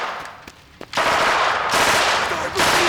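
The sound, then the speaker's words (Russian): Gunfire from scouts kneeling beside a hut: a couple of sharp cracks, then a dense, continuous roar of sustained shooting that runs loud to the end. “Опустившись на колени рядом с будкой, открывают огонь.”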